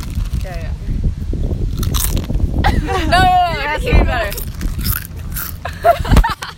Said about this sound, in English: No, no, bite into it. Yeah, bite.